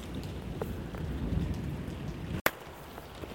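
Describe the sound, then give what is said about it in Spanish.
Heavy rain downpour with thunder, a dense, steady hiss of falling water over a low rumbling bed, holding at an even, moderate level throughout. “nos llovió, tronó y cayó un aguacero como estilo Ciudad Monstruo. Pero esta vez del otro lado del charco. Y no ha parado, no ha parado,”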